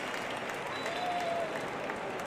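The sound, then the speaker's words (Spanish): Faint crowd applause in a football stadium as a player is substituted off, a continuous soft wash of clapping with no distinct single claps. “Aplausos para Goti. El autor del primero de los dos que ha metido el Oviedo.”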